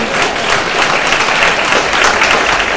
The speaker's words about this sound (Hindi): ताली बजाइए जोर से